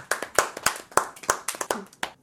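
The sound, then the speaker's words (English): Applause for a guest after an emotional talk: a quick, even run of many sharp, distinct hand claps with no voices, sounding like a small group clapping. “I think we should have an applause for Lewis”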